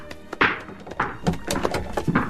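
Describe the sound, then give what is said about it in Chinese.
A house door is opened late in the evening with several dull, hollow thunks and knocks at uneven intervals, fairly loud with no talk. “让我去开门啊。”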